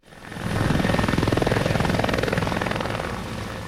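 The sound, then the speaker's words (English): Helicopters carrying firefighters fly overhead during a wildfire in hilly Almeria province, southern Spain. A loud, rapid, steady rotor chop with engine whine swells up quickly at the start and then holds strong throughout. “helicopters buzzed through the air transporting firefighters who've contained a blaze burning in Almeria province”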